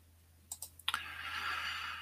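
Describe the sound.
A computer mouse clicking on a shopping website: a quick run of a few light, crisp clicks, followed by a steady, soft rushing noise.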